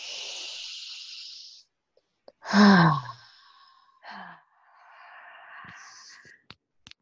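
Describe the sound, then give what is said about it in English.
Deep breaths during a guided relaxation: a few long, airy breaths, one of them a loud voiced sigh, with no talk over them. “Take a few more deep breaths and then gently bring yourself back.”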